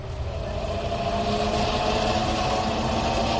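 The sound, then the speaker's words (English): A spaceship's sublight drive in an audio drama, rendered as a steady, low engine-like rumble with a constant hum that stays even throughout. “Bring us in closer. Aye, aye, sir. Moving us in on sublight drive.”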